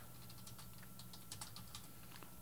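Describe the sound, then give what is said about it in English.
Typing on a computer keyboard: many soft key clicks in an irregular, continuous run, quiet and alone with no voices. “Sorry, I'm trying to type something at the same time.”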